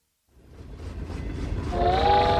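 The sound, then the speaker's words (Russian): A train gathers speed on its way to Moscow, its low rumble building steadily louder, with a sustained whistle-like tone sounding over it near the end. “Поезд набирал ход и увозил гномика в настоящую Москву, далекую, красивую и родную.”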